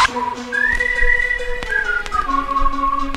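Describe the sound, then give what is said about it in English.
A whistle blown as part of a dance track, sounding as a clear, high tone that holds and steps between a few pitches, with sharp percussive clicks of a beat underneath. “Blow my whistle,”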